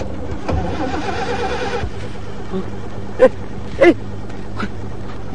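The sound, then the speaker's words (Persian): An old car engine cranks without catching: a rough, churning burst of starter noise lasting over a second, then it stops, followed by a few short knocks. “چند تا که ساله، صد تا استارت هم بزنی روشن نمیشه.”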